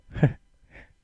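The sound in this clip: A speaker imitates a gasp with one short, sharp breathy intake, followed by a fainter trailing breath.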